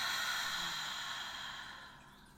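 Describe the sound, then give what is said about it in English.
A deep breath is let out in one long, airy exhale. The steady breathy hiss fades gradually over about two seconds and is heard alone. “Let's take a nice deep breath in and release.”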